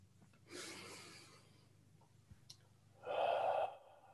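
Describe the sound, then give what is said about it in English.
A deep breath taken while pausing to settle in, heard as two soft rushes of air, the second shorter and louder. Quiet overall, with no talking. “take a moment and take a deep breath in and fully arrive where we are”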